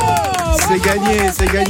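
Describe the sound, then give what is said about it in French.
A person leaning out of an open window shouts loudly during a radio contest, one strained voice held over a few seconds with some background commotion. “J'ouvre la fenêtre, c'est vite, bon. Vite. Tu te penches, tu ne tombes pas. Et je veux que tu gueules, ici!”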